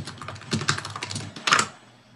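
Typing on a computer keyboard: a quick run of many light clicking keystrokes in an uneven rhythm, ending in a brief louder flurry before falling quiet.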